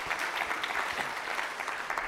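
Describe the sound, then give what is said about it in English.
Soft, steady applause from an audience, many hands clapping in an even, fairly faint wash that holds its level throughout with no voices standing out. “So a round of applause for Esther too.”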